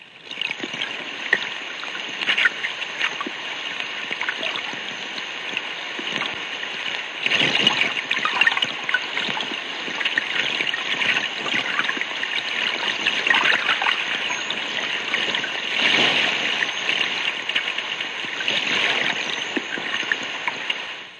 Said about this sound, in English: Water noise has no definite pitch or rhythm. Over the expendable radio sonobuoy, it sounds like this.